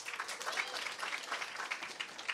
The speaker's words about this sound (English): By a round of applause, who has seen the movie?